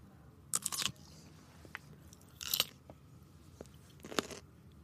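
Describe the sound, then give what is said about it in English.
Crisp crunching of a pickle being bitten and chewed: three loud, sharp bites with fainter chewing crunches between them, and no talk. “And it's the sound of the pickle. It's not the sound of your mouth.”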